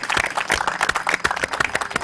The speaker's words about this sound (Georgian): და აპლოდისმენტები თქვენ ამისათვის.